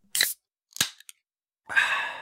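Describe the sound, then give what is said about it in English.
Drink can from a six-pack cracking open: a sharp crack, then a short snap with a small click, followed by a sustained fizzing hiss. The sounds are brief and fairly faint, with no talking. “So let's crack open that six pack.”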